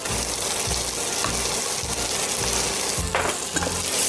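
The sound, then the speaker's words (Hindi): Masala paste with red chilli sizzling loudly as it fries with mutton in a pan: a steady, hissing crackle with repeated stirring scrapes and soft knocks throughout. “इसको बस एक minute भून के अभी हम लोग ये paste जो बनाया था ना वो डालना है”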